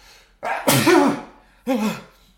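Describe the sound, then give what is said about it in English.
A loud sneeze: a breathy inhale builds into a strong, voiced explosive burst, then a second shorter burst follows after a brief pause. “I'm going to sneeze.”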